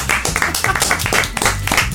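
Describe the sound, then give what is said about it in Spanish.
Applause from a few people, loud, sharp hand claps in a rapid, fairly even rhythm for two seconds, with faint voices mixed in. “Un aplauso para Afro.”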